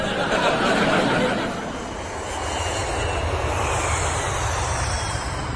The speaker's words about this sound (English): Good evening, ladies and gentlemen. Captain Kreef here speaking. We should be landing in Gdansk in just under 20 minutes.